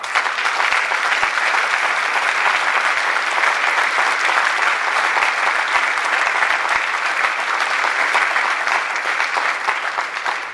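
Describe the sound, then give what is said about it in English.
Sustained audience applause at an evening event fills the whole stretch, dense and steady, holding one even level from start to finish with no voices breaking through. “I hope you will indulge me by offering them collectively your applause.”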